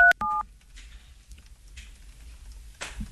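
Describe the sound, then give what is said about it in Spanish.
Telephone call-transfer tones: two short, bright electronic beeps at the start, then a quiet stretch of faint low rumble with a soft rustle near the end. “Llamada transferida a Claro.”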